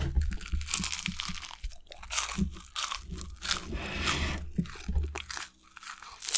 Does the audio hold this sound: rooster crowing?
no

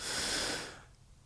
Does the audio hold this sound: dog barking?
no

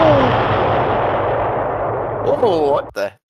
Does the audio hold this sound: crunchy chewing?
no

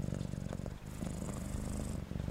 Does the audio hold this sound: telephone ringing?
no

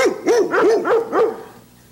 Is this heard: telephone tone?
no

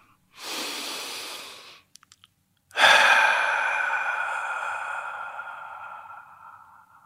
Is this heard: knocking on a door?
no

